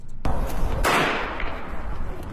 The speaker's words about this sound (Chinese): 枪声响起